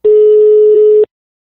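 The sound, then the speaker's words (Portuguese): Ringback tone of an outgoing telephone call: a single steady mid-pitched tone lasting about one second, loud and clean, then silence. “Eu vou ligar pra Mônica.”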